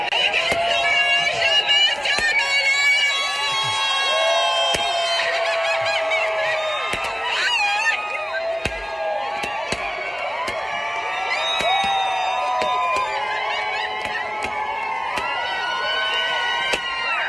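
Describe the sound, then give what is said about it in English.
A crowd cheering and screaming in celebration of Britney Spears being freed, a sustained loud mass of shrill cheers and screams with scattered sharp claps throughout. “They were like on the streets and like that's the kind of the feeling that you get when you hear the reaction to Britney being freed. Take a listen.”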